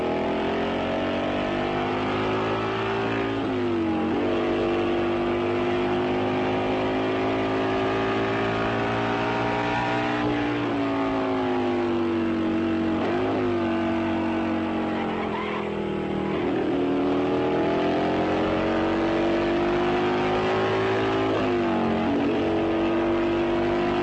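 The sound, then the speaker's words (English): Highly tuned road racing motorcycles with wind-cutting fairings race, their engines wailing loudly and continuously, with pitch climbing repeatedly and dropping abruptly at gear changes. “Road racing is noisy, precise, and very exacting.”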